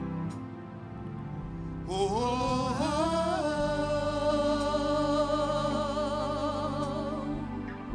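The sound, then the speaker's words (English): A single voice demonstrates moaning and groaning in prayer: long, sustained 'oh' tones with a wavering, slowly shifting pitch that swells after a quieter start and holds steadily loud to the end. “You could just moan and groan in the spirit. And it would sound something like this.”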